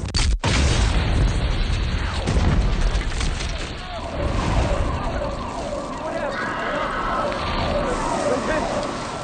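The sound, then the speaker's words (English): A bomb explodes at a marathon in a film recreation, starting with a sudden sharp blast. It is followed by a dense, chaotic roar with wailing sirens and voices mixed in. “And then the bombs go off.”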